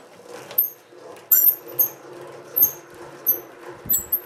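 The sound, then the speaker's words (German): Squeaking from an old homemade honey extractor built for three combs: many sharp, high-pitched squeaks recur in a fairly regular rhythm over a low mechanical rumble. “Hier sehen wir eine schöne alte selbstgebaute Honigschleuder. Die ist also hier für 3 Waben. Ich glaube, das können wir ganz gut hören. Die hier quietscht.”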